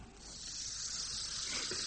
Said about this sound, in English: You're going to... pour water on it. Ordinary H2O.